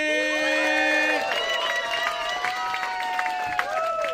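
Audience applause and cheering at a comedy roast battle welcome two comedians to the stage: a steady, loud wash of clapping and shouting that holds for several seconds.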